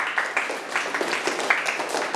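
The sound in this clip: A classroom of students clapping for themselves, a fast run of many claps over about two seconds, fairly even in rhythm, with a voice speaking briefly.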